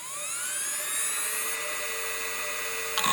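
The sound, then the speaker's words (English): Faint high whine of a spinning hard drive in a 2005-era PowerBook laptop: tones climb as it spins up over about a second and a half, then hold a steady pitch, with a brief click near the end. “I remember that you could actually hear the spinning of the drive. It would spin fast when you'd start it up or click on a file. It was a mechanical thing you felt. Yeah, like my 2005 era PowerBook would sound kind of like this.”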